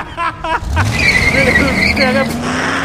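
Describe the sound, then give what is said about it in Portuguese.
A car accelerating hard with tires squealing, in a cyberpunk tabletop role-playing game: a rising engine surge followed by sustained high screeching, with voices at the start and road noise throughout. “Pega o keycard e acelera o carro.”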